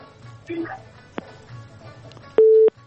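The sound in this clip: A telephone tone sounds after a dropped phone call: brief voice sounds first, then a single steady electronic beep near the end.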